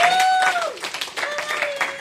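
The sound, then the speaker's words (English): Audience applause for a speaker at a speaking club meeting, a short burst of clapping under a held voice. “Great job. Let's give Madani a great, round.”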